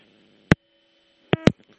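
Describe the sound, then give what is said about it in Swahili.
A telephone line cutting off during a live news call with a reporter: one sharp click, then a pair of short electronic bursts over a faint steady tone, brief and clipped. “Naam, naona simu yake mwanahabari wetu Silvanus Karimera imekatika, lakini tunaendelea kumtafuta.”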